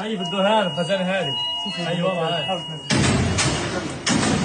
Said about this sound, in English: Staff and patients were among those killed and wounded at and around the hospital. You can hear the hospital here under fire.